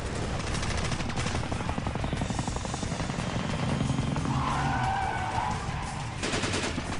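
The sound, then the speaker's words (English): Rapid, continuous gunfire in a video game firefight. Dense bursts of shots run through the whole clip at a steady, loud level, with a low drone underneath. “There's bullets flying everywhere.”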